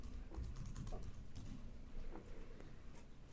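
Typing on a computer keyboard: many quick, faint key taps in an uneven rhythm, with a low background murmur.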